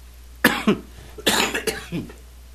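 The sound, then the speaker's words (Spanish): A person coughs in a few harsh, sharp bursts, grouped in two clusters with a short pause between them. The coughs are loud and clear, with no talk around them. “por estas toses que de repente aparecen, que no debería de ser, ¿verdad? Pero bueno, es inevitable.”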